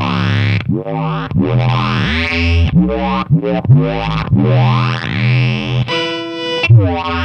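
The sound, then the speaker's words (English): Buzzy square-wave synth tone from a Line 6 FM4 synth pedal, heavily distorted and harmonically rich, playing a fast run of many sustained notes that shift pitch in quick succession with almost no gaps. “And then this would be the Line 6 FM4 kind of square wavy thing.”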